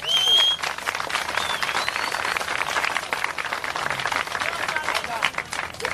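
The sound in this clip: An audience applauds at a street performance with steady, busy clapping throughout, while people shout and talk over it.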